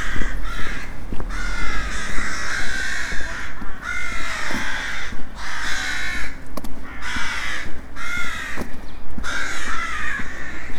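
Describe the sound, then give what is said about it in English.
Rooks cawing near a churchyard, many harsh, raspy caws overlapping in repeated bursts that keep up loudly throughout. “Those rooks are noisy.”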